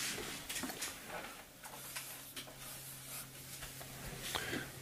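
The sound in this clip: Faint scratchy pen strokes as a diagram is drawn on a board, coming in irregular short bursts over a steady low hum.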